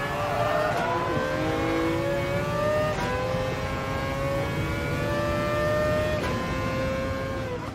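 A GT car's engine revs continuously in a racing video game, a loud, steady whine that climbs in pitch and drops back at several gear shifts throughout.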